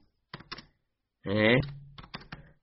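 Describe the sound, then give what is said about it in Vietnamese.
Typing on a keyboard gives a few sharp, dry clicks in two small clusters, separated by a brief stretch of voice. “Chờ mấy người này, như tôi không có cầm bi được cho nên tôi phải gõ thôi.”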